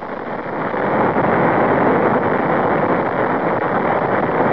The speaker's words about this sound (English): We do have a commit to launch, and we have liftoff. We have liftoff right on time. Tremendous amounts of fire showering out. The little yaw of vehicle motion. She's cleared the tower.